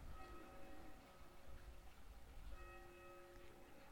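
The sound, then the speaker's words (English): Church bell ringers practising, their bells giving faint ringing tones that sound twice over a steady low rumble of passing traffic. “the bell ringers have been practicing down in the church, so you might hear them start up again in a moment. There they are.”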